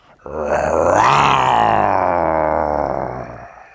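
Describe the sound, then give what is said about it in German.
A person's voice imitates a jaguar with a single long, low, growling roar that swells quickly, holds for about three seconds, then fades out. “das war ein Jaguar”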